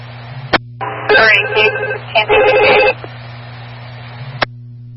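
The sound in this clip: A telephone call rings during a police dispatch exchange as an officer tries to reach a complainant. One ring lasts about two seconds, with sharp clicks before and after it, over a steady low hum.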